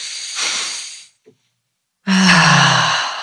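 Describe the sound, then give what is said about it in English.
People take a deep breath together: a soft, hissy inhale, a short pause with a faint click, then a long, loud, voiced sigh as the breath is let out. “Shall we take a deep breath? Let's take a deep breath.”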